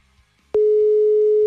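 Telephone busy signal on an unanswered call: a steady, clear pitched tone switches on about half a second in and holds unbroken to the end.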